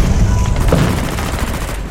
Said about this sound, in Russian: Выстрел!